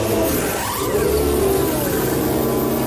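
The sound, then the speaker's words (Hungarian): A Formula 1 Mercedes car pulls into the pits for a tyre change mid-race. Its engine gives a steady, loud droning whine with a gritty mechanical edge throughout, with no voices. “Az egyik Mercedes várják, Bottas jön. Valtteri Bottas tehát a 31. körben az élmezőnyből a harmadik pozícióból kiáll kereket cserélni.”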